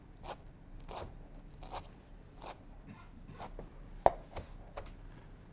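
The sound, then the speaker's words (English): A knife slices through fresh parsley leaves rolled into a small ball, making a steady series of soft, crisp cuts at an even rhythm with one sharper tap near the end, faint and with no talk. “But the way to cut parsley is to roll the whole thing into a little ball, and then slice it.”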